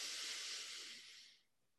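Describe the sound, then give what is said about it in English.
A deep breath drawn in during a guided breathing exercise: a soft, airy hiss that holds steady, then thins and fades out, heard alone. “And let's start with a couple of deep breaths. Inhale.”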